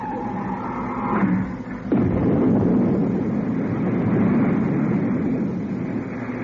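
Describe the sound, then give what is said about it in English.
A deep, rumbling roar of spacecraft retro rockets firing bursts in abruptly about two seconds in, then holds as a loud, steady, wind-like rush until the end. “I've removed the safety cover from the retro rocket firing switch. I'm pressing the switch now.”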